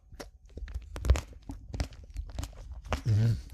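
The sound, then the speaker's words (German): Crunchy biting and chewing of a tomato, a run of many irregular moist clicks and snaps at moderate volume, with no talk over them. “Ich esse jetzt meine letzte Tomate.”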